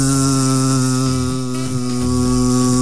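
A mosquito's buzzing whine forms a loud, steady, harmonically rich drone at a nearly constant pitch, dipping slightly for a moment midway before resuming.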